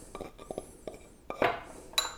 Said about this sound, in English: Into the bowl it goes. Everything's looking really good. Just getting it out of the pilon here.